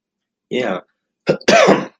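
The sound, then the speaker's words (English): A person coughing and clearing their throat in a few short, loud, rough bursts with a brief pause between them. “Oh my gosh, my coughing, what's wrong with me?”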